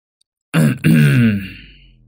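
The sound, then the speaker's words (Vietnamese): A woman clears her throat in one loud, rough, low vocal burst that breaks briefly and resumes, then trails off over about a second and a half. There is no other sound, beside a house where a rice mill is being pushed. “Anh Khoai đang đưa đẩy cái cối xay, ở phía sau lưng anh bất chợt có tiếng của bà Hai hắng giọng.”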